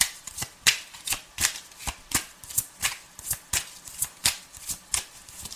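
Tarot cards being shuffled: a long run of quick, crisp riffling bursts in a regular rhythm, each a short papery flutter, fairly soft and heard alone.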